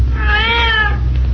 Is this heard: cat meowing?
yes